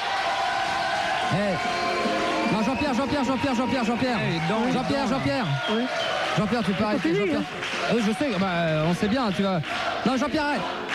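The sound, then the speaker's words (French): Live concert audience noise, a dense crowd of many overlapping voices singing and calling out together, with a steady roar that continues without a break through the whole stretch. “Jean-Pierre, arrête la musique, écoute le public, écoute. T'entends Jean-Pierre?”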